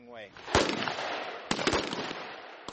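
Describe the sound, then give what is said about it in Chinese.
Gunfire at a live-fire marksmanship competition held by US and South Korean army troops: several sharp, loud shots at irregular intervals, the first preceded by a brief voice. “美韩军演部队还举行了确定最佳射手的实弹射击比赛。”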